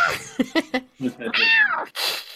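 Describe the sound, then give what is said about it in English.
A person imitates a cat's meow. A few short spoken syllables come first, then a drawn-out, high, nasal meow with an arching pitch, followed by a second shorter, breathier call. “My cat's probably freaking out going, whoa, that was realistic right there. I can do a pretty good cat”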